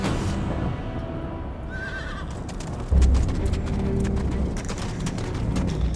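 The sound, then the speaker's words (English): A horse-drawn coach in Victorian London: hooves clip-clop steadily throughout, and a horse gives a short high whinny early on. A heavier rumble of the carriage joins about halfway through. “Agnes armed herself with a fire poker from her hearth and caught a coach to Soho with Utterson. They rode from the fashionable district to a section of squalid shops.”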